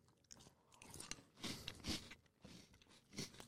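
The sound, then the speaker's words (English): Someone eats crunchy cereal: a quiet run of chewing and crunching bursts, several separate bites and crunches with short pauses between them, and no talk. “That is a delicious cereal.”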